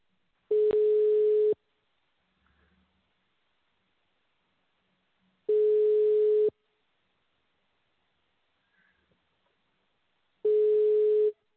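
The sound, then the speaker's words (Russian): Telephone ringback tone while a call connects: three identical steady, mid-pitched tone bursts, each about a second long, separated by long silent gaps, fairly faint. “Начинаем звонить абоненту. Ожидайте соединения.”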